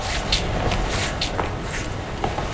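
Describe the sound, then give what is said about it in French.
A patient walking ten steps gives soft, scattered footfalls, a few faint taps over a steady background hiss. “Là, je veux vous demander de marcher 10 pas, comme vous marchez chez vous, le temps que les systèmes enregistrent la marche.”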